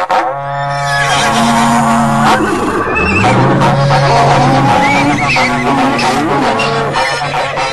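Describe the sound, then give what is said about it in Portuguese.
A berrante cattle horn, the call blown by cattle drivers, sounds loud, sustained, low blasts with sliding pitch. The tones hold steady and full for the whole stretch. “Reúne a tropa aí, seu moço, repico berrante”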